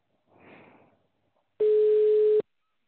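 A ringback tone for an outgoing phone call: a single steady mid-pitched beep lasting under a second, preceded by a faint, brief rustle.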